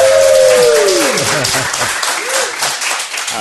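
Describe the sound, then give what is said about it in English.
Live audience applause, dense continuous clapping that begins at full strength and eases slightly toward the end. “Should we do the thing where we mention that there's an audience here? Let's hear the audience.”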